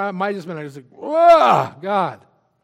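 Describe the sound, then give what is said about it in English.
A human voice lets out drawn-out, voiced groans of anguish, the longest arching up and back down in pitch, moderately loud, before falling silent. “it was nothing more than a groan.”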